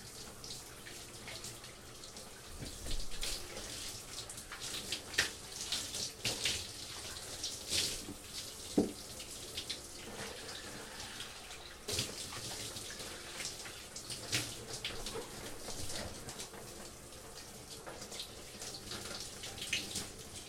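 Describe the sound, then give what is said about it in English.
Water runs while someone washes their belly, a quiet, continuous splashing hiss broken by scattered drips and small splashes throughout, with no talking. “I'm just washing my belly.”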